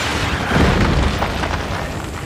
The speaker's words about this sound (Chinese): 请看全球首枚纳米虫弹头试射的实况，每个弹头都装有700万只纳米虫